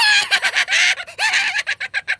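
An angry hen clucks and squawks furiously, with loud, choppy bursts of shrill cackling that break into a run of short, rapid clucks at the end.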